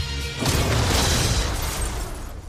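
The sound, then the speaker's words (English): A photon blast energy-weapon effect from a comic-book superhero film bursts in as a loud, dense roaring whoosh over a low rumble and sustains for around two seconds, wide and noisy with no talk. “It's a photon blast.”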